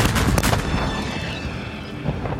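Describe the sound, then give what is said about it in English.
A broadside fired all at once by cannons along a sailing warship's starboard side, heard as a dense, loud blast of booming, rumbling noise that stays heavy at first and then slowly thins and fades. “Given the signal, all down the Portsmouth's Adventure's entire starboard side, cannons fire at the same time. Your cannon buckles back on its wheels”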